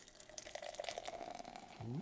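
A pale, hazy plum Berliner-style craft beer from Shades Brewing is poured from a freshly opened container into a glass: a quiet continuous trickle and fizz, with a short voiced exclamation near the end.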